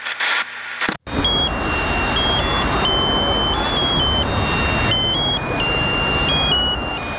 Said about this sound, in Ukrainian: це от наземний перехід, буквально десь метрів 100-200 від мене на даний момент. Центр міста.